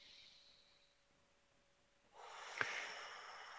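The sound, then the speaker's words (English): A breath drawn during a guided breathing exercise: a soft, airy rush of breath that starts abruptly after a quiet stretch, with one short sharp click in the middle, then holds steady to the end. “Take a breath.”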